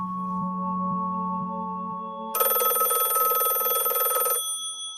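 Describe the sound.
A telephone bell rings in one bright, loud, continuous burst of about two seconds, following a low, steady hum and then stopping abruptly.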